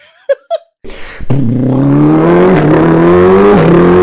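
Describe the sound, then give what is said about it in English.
A person beatboxes a car engine, voicing a revving drone whose pitch climbs slowly with a couple of brief dips. Two short vocal sounds and a sharp click come before it. “He's like beatboxing the car sounds pretty much.”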